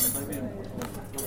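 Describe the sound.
Cutlery is handled at a table set with several courses of silverware, giving soft metallic clinks and chinks over a low background murmur during a short moment.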